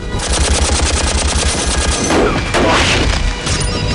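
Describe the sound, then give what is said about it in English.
Heavy machine gun firing from the ground at an aircraft and hitting the cockpit: a loud, unbroken stream of rapid shots with dense, rhythmic bursts throughout. “A heavy machine gun on the ground opens fire, hitting the cockpit.”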